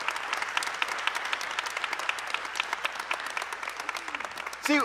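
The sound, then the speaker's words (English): Audience applause at New Life, many quick claps forming a steady, lively patter that holds throughout before a voice starts speaking at the very end. “Can you guys at New Life give them a round of applause for saying that?”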